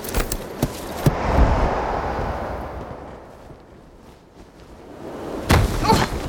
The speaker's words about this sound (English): That was a pretty rough landing.